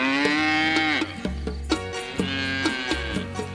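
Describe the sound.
Cow mooing: a long, drawn-out low moo that falls in pitch at its end, followed by further deep lowing with a few short thumps mixed in.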